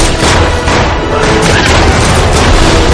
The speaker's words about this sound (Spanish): Da una pistola a Ivy. Ambos disparan.